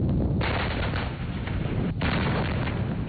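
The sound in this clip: Artillery fire during an army brigade's live-fire strike exercise, heard as a dense, continuous rumble of gunfire with no clearly separated blasts, steady and moderately loud throughout.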